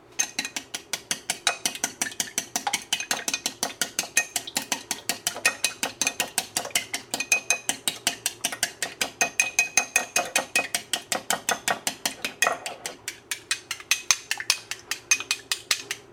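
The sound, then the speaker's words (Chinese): A raw egg being beaten with chopsticks makes many quick, light clicks against the bowl in a steady, even rhythm that continues throughout. “接着呢，我们来打一颗蛋。好，然后拿筷子搅碎它。”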